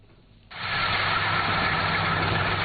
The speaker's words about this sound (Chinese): 安徽黄山市歙县镇村镇梅村的油菜田里，大型收割机正开足马力穿梭作业，一笼笼油菜被快速卷入机身